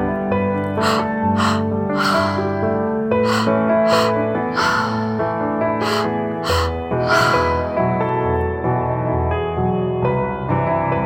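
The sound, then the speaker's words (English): Deep, rhythmic breathing during a confidence breathwork exercise, with many sharp, gasping breaths repeating in a steady pattern over continuous sustained music. “One breath after the other. That's it. Keep going.”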